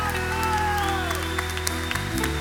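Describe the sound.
A church audience clapping in praise: a brief, steady wash of applause mixed with sustained musical tones, keeping an even loudness throughout.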